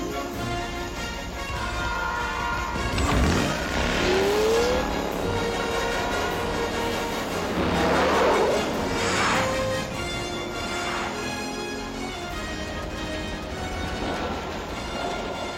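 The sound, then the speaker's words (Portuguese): A subway train approaches at rush hour, sending a low, continuous rumble with two broad swells of rushing noise and a brief rising whine early on. No voices are heard. “Depressa! É hora do rush. Vem vindo um trem bem atrás de mim.”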